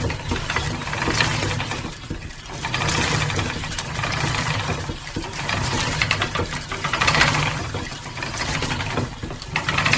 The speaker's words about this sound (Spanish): en las hilanderas, la rueca está trabajando, está sonando y tiene un sonido que sonaría así.